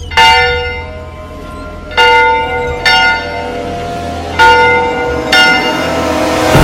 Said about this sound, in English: He takes the bell rope in both hands and pulls.